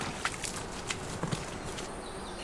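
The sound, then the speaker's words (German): Footsteps walking on a forest path with many puddles near a woodland clearing, faint and irregular, a handful of soft crunching treads standing just above a steady hissing background. “Und jetzt gehen wir auf so einem Weg mit vielen Pfützen.”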